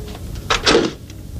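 A door is being closed, producing a couple of short wooden clunks in quick succession over a quiet background.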